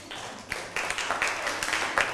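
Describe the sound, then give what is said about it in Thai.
Classroom applause as students clap for a classmate, with many scattered, uneven claps building to a moderate, steady patter. “นั่งลงได้ครับปรบมือให้เพื่อน”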